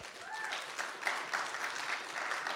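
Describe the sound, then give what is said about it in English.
Applause at a third-anniversary community gathering as a speaker is welcomed, a steady wash of many hands clapping at even loudness for a couple of seconds. “So y'all give a hand to Karla.”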